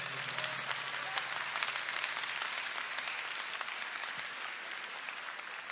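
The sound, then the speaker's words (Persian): An audience at a religious gathering claps on request, producing a dense, steady burst of applause that holds at an even level for the whole stretch, with no voices standing out. “حالا یک کف مرتب بزن”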